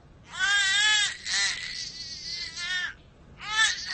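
A baby cries in high, strained, wavering wails, loud and repeated in a few long bursts with brief breaths between them and a short pause before the last cry.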